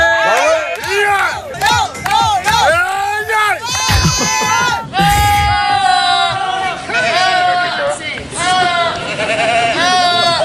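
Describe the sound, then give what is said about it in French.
Goat bleats, quavering and nasal, rise over a loud, dense cheering crowd that fills the whole stretch without a break. “il y a une chèvre dans la foule ou c'est moi?”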